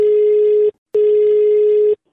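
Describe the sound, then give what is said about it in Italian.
Telephone line tone heard while placing a call: two long, steady, mid-pitched beeps separated by a short gap. It is loud and clear, with no voices. “Andiamo ai telefono”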